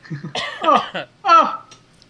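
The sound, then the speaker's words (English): Coughing and throat clearing from someone choking on something while talking, a few harsh, loud coughs in two quick clusters with a brief pause between them. “I don't know what I'm choking on”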